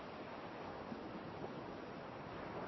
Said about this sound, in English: you watch the waves come in and out almost reaching the bottle.